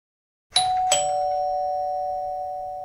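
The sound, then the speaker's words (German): A doorbell rings with two chimes in quick succession, the second a lower note, like a ding-dong, followed by a long, slowly fading ring with no voices. “Wieder schellte es. Es schellte und schellte. Dann war es still. Lange Zeit war es ganz still. Schellen, das heißt? Klingeln.”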